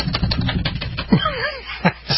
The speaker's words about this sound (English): it sounded when I was hitting the keyboard